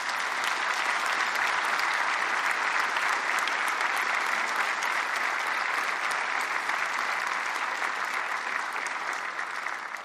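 An audience in a church applauds a group, a dense, even stream of many hands clapping at steady loudness for the whole stretch without pause.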